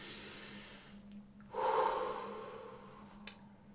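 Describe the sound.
Deep breathing in a calming moment: one breath that swells quickly, then slowly tapers off, with quiet before and after.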